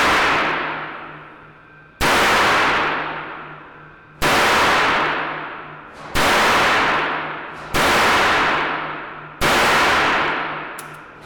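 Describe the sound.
Gunshots ring out at a firing range: the fading tail of one shot, then five sharp, loud cracks at fairly even intervals, each followed by a long decaying ring.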